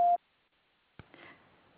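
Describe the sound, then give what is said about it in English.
A voicemail beep before a message is recorded: one short, loud, steady mid-pitched tone lasting a fraction of a second, then near silence, a click and faint line hiss. “The TextNow subscriber you are trying to reach is not available. Please leave your message after the tone.”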